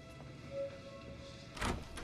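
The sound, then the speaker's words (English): A door is opened with a soft low thump, and a brief, louder rattling clatter follows over a faint steady hum. No voices are heard. “Open the door.”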